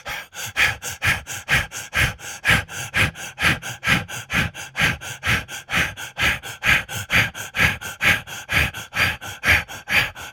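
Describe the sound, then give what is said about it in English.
Rhythmic breathing in and out during a breathing exercise: many quick, forceful breaths in a fast, even pulse, alone and at steady loudness for the whole stretch. “Hold. Release the breath. Again, breathe in and out of the root.”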